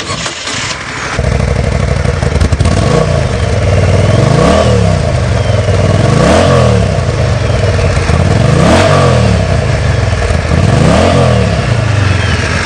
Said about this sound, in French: je ne vais pas parler beaucoup, je vais juste démarrer le moteur